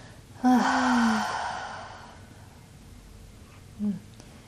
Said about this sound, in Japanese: 一回深呼吸しますね。と鼻から息を吸ってね、口から大きく、